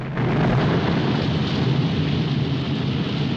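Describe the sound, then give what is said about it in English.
Another explosion engulfs a tank in flames in a desert war drama: after a sharp onset, a heavy, sustained, rolling roar holds with rumbling low end and crackling noise and no pause. “They just get free as another explosion engulfs the tank in flames.”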